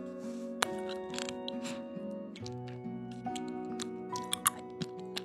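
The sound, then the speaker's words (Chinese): Wet mouth clicks from sucking a candy, a few small sharp ticks and smacks over a steady low tonal background. “啊，你听到我嘴里有糖的声音了？对呀，吃了一个糖糖。”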